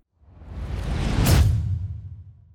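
A transition whoosh swells from a low rumble to a loud, airy peak near the middle, then fades smoothly away, alone with no voices.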